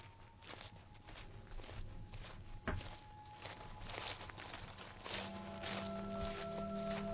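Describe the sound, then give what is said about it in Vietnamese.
Footsteps outside, a long run of soft, regular steps heard faintly, with a thin steady hum entering near the end. “Hình như loáng thoáng ở bên ngoài có tiếng bước chân vang lên.”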